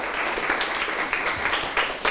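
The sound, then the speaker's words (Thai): Students in a classroom clap for a classmate who gave a correct answer in a maths lesson, a dense patter of hands with a few louder bursts standing out over two seconds. “ถูกต้องครับปรบมือเพื่อนหน่อยครับ”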